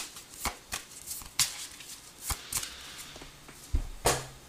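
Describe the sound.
Tarot cards being shuffled during a Virgo tarot reading, heard as irregular sharp slaps and brief papery riffles separated by quiet gaps, moderately soft overall with no one talking.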